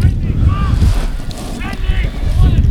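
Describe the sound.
Strong wind buffets the microphone at a hurling or Gaelic football match: a loud, rumbling low roar with gusty surges runs throughout, with faint voices above it.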